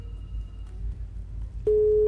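A telephone busy signal on a cut-off radio call-in line sounds as one loud, steady mid-pitched tone near the end, over a low hum.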